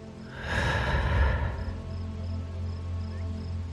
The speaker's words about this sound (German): Atme einmal tief durch und wieder aus.